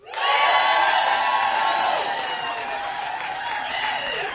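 An audience at a stand-up comedy set in Oregon breaks into loud cheering, whooping and clapping, a dense, sustained roar that starts abruptly and holds steady throughout.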